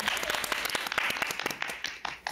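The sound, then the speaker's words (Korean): Applause and cheering clapping from a studio audience during a singing judging round on a variety show, a dense, steady run of many sharp claps at moderate loudness filling the whole moment. “박수! 박수!”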